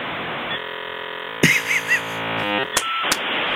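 Dial-up modem connecting to an internet service: a steady electronic tone gives way to harsh, hissing static with warbling chirps and a couple of sharp bursts near the end. No voices.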